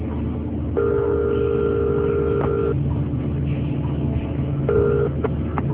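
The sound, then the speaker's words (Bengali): Telephone call being placed, with steady electronic ringback tones over a low background hum: one long tone of about two seconds, a pause, then a second shorter tone near the end. “না নাম্বারটা call দেই, যাক এবার phone ধরলেই হয়।”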